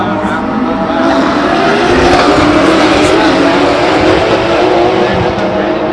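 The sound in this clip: GT class race cars, Porsche 911s and Dodge Vipers, roar continuously at a race in Long Beach, a loud, dense, unbroken wall of engine noise throughout.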